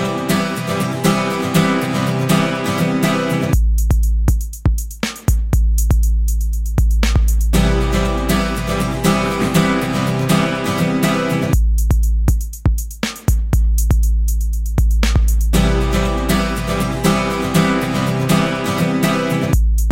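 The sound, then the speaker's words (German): A self-made song from the GarageBand music app plays back loudly. Its dense layered synth tones ride a steady low bass pulse, and twice the full arrangement drops into a sparse, bass-heavy break before the whole texture returns. “Ich habe jetzt das GarageBand irgendwie gefunden und habe es ausprobiert und ich habe jetzt schon mein erstes Stück gemacht.”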